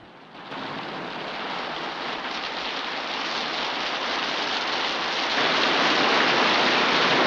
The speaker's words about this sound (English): The first drops of rain fall onto some white flowers, swiftly followed by a ferocious downpour.